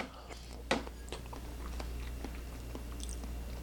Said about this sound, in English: But let's give it a taste test. Here we go, three, two, one.